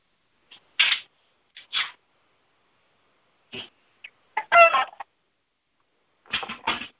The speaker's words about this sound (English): it's my roosters and Mr. Legacy